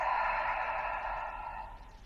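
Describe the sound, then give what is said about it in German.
A long, soft breath during a guided relaxation exercise: a steady, airy hiss of moving air that holds for about two seconds and then fades away, with no talk. “Und ein letztes Mal atme tief durch die Nase ein und durch den Mund aus.”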